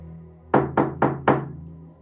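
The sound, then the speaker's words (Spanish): Four firm knocks on a bedroom door, evenly spaced and sharp, each with a short wooden thud, standing out clearly over a quiet background. “Estás en la puerta de mi habitación a punto de llamar.”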